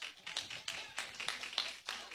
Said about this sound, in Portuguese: Palmas para Jesus.